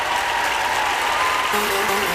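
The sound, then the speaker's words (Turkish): Dense, steady applause from a crowd, held at an even level for the whole stretch, with no voices standing out. “Her zaman olduğu gibi büyük alkışlar Kral FM'in dinleyicisine, dinleyenler kulübünde.”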